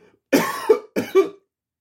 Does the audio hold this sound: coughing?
yes